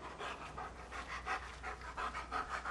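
A big dog pants steadily, with rapid, rhythmic breathy huffs repeating many times, fairly faint and heard alone.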